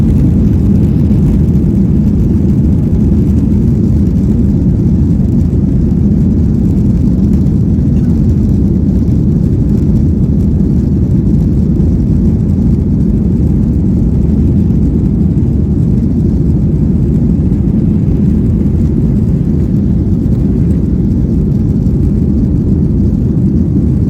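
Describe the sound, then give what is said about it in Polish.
Inside an airplane cabin at the airport waiting for takeoff, a loud, steady, low engine drone rumbles without pause or change for the whole stretch. “A, my jesteśmy ciągle na lotnisku. Czekamy na start.”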